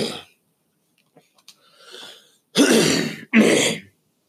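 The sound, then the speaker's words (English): A person clears their throat in two loud, harsh, rasping bursts, one right after the other. A few faint breathy sounds come before them. “excuse me, I got something in my throat.”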